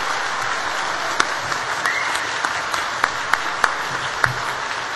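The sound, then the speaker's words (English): Applause rises from the audience at a science faculty convocation as a speaker is welcomed. The clapping is dense and steady, with a few sharper individual claps standing out. “a nice hand for Max Lanzmann.”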